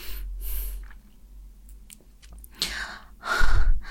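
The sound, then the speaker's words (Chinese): Wet mouth sounds of someone eating a lollipop on camera: a few short, breathy smacking and sucking bursts separated by quieter stretches, growing louder and denser toward the end. “那怎么不能算吃东西？你看的那个就只是在吃棒棒糖而已啊！”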